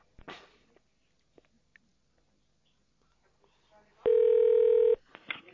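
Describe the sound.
A telephone call is transferred: a few faint clicks and taps, then a single steady electronic tone of about a second, followed by more soft clicks.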